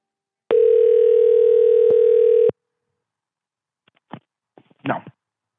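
A phone call ringing out toward voicemail: one loud, steady two-second ringback tone, then silence broken by a few soft clicks.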